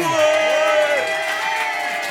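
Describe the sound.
A studio audience cheers wildly, with whoops, shouts and overlapping excited voices forming a loud, continuous roar that barely lets up.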